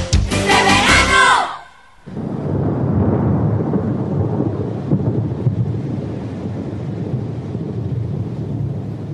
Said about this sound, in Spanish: Gota a gota, en mi cabeza, siento, las noto, empieza a llover.